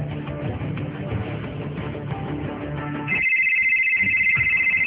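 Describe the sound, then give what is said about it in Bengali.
Electronic telephone ringing as a call is placed: after a few seconds of dense, busy background sound, a steady high trilling ring starts and continues to the end over a fainter background. “দিক বিদিক না পেয়ে ফরিনের মায়ের কাছে phone করলো সাফওয়ান।”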